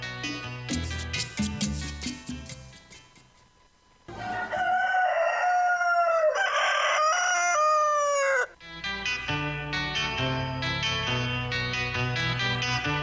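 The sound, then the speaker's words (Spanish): A long rooster crow, the morning call of a cock, rings out in the middle of a musical jingle. Busy music plays before and after the crow. “lánzate, Mariel, con esta cápsula del gallo mañanero”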